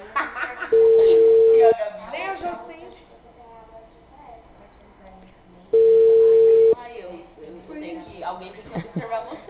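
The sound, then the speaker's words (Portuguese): Telephone ringback tone heard while placing a call: two steady, mid-pitched beeps, each about a second long and spaced several seconds apart, with people talking in between and over the line. “Tô ligando.”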